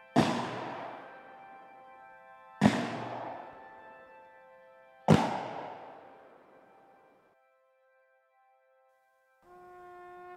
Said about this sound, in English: The Old Guard firing detail from Washington, D.C. fired a 21-gun salute.